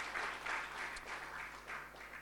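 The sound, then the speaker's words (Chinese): A church audience claps during a Chinese-language sermon, giving glory to Jesus: a faint, continuous wash of many hands clapping that pulses slightly in strength. “拍手把荣耀归给耶稣好不好？”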